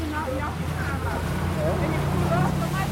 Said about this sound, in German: Wir verlassen das Schiff auf einem Schnellboot.